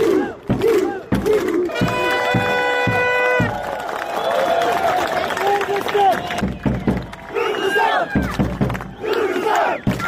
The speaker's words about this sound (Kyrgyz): Оюн бүткөн соң көрүүчүлөр жеңүүчүлөрдү салттуу кол чаалуулар менен узатышты.